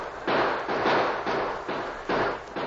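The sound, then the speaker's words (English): Gunfire crackles during a radio drama shootout at a makeshift barricade, a rapid series of harsh, noisy bursts in uneven rhythm, moderately loud and with no talk over it. “And as Soapy's men neared the top, they opened fire from behind a makeshift barrier.”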